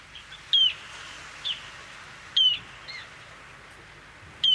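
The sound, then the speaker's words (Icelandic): A bird gives sharp, piercing, high-pitched peeps: three strong ones spaced roughly two seconds apart, with a few fainter notes between, over a quiet background. “Hljóðið í þessum fugli er svona.”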